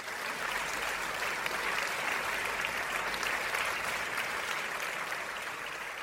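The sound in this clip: A show audience applauds to welcome a guest, dense, steady clapping that holds at an even level throughout.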